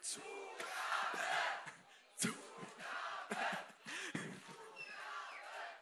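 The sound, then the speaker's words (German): A concert crowd chants 'Zugabe' for an encore, a rhythm of repeated group shouts that rise and fall in a few swelling bursts, fairly faint overall. “Könnt ihr alle noch mal eine Zugabe geben? Noch mal eine Zugabe, dann hört sie es.”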